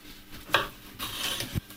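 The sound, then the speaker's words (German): A knife slices a bell pepper into strips, with a few crisp, quiet cuts and knocks spaced irregularly over about two seconds. “Dann schneiden wir die Paprika in Streifen erstmal.”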